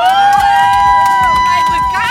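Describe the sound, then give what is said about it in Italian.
A crowd cheering and shouting loudly at a live entertainment show when a bride-to-be's fiancé is named. Excited voices and a sustained tone carry over a busy, unbroken din. “Io mi preoccuperei del fatto che ci sono stati più applausi e più motivi di gioia per Alessandro che quando ho presentato te.”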